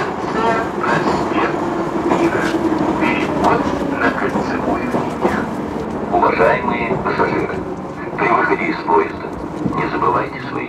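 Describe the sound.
Steady rumbling and rattling inside a moving metro carriage, a dense continuous roar with scattered clanks and clatters running throughout.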